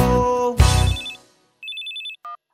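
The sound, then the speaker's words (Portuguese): Mobile phone ringtone within a song: a burst of music fades out, then a short run of rapid, high electronic beeps sounds, followed by one brief lower two-tone chirp. “Peguei meu celular e disquei meu amor. Foi aí então que celular chamou.”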